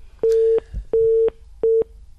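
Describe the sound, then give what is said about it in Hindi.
A telephone line tone sounds on a caller's line that fails to connect: three steady mid-pitched beeps, evenly spaced, the last one shorter, with faint background noise in the gaps. “एक श्रोता का telephone call आ रहा है”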